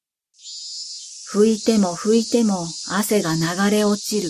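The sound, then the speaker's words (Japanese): Cicadas singing in park trees on a sticky midsummer day make a continuous high buzzing drone that begins abruptly and runs unbroken, with a voice talking over it. “公園の木立から聞こえる蝉の声が騒々しい。”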